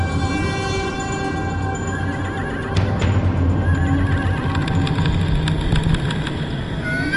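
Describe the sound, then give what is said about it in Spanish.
Frantic horses whinny and neigh as they break their tethers and bolt with a cart, hooves clattering beneath. The shrill cries and hoofbeats form a loud, continuous din that grows more intense in the second half. “comprobaron que los frenéticos caballos habían roto sus ataduras y huían enloquecidos con el carro.”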